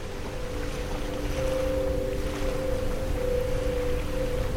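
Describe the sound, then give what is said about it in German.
Ocean waves washing onto a sandy beach, a soft, steady surging hiss that swells gently beneath a sustained low musical drone, with no voices. “Eine Welle bricht sich am Strand und gleitet auf deine Fußspuren zu. Sanft, aber unnachgiebig streicht sie darüber hinweg.”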